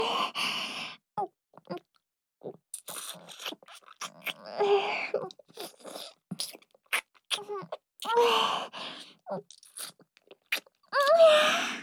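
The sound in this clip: Wet chewing and mouth smacks from eating grated apple with lots of honey come as short, clicky bursts scattered throughout. A voice mixes in soft moans and sighs.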